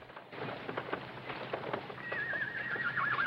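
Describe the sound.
A horse arrives and its rider dismounts: soft hoofbeats and shuffling sound faintly, then a high, wavering whinny rises near the end.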